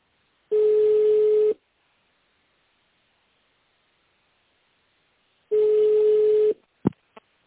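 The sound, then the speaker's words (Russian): Telephone line tone while a call is being transferred: two steady, evenly pitched beeps of about a second each, separated by a long silence, then a couple of sharp clicks. “На «Альбатрос» сейчас соединю. Оставайтесь на линии.”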